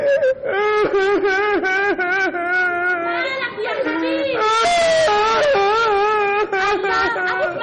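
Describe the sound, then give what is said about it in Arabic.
A boy crying and wailing, worn out from sobbing: loud, continuous voiced wails with wavering, sliding pitch and a few breaks between the cries, with no pause for quiet. “وبعد شويه رجع ابنه هالك نفسه من العياط”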